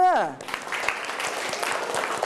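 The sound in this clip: Students in a classroom clapping their hands: a dense, steady burst of many hands applauding right after a brief voice at the start.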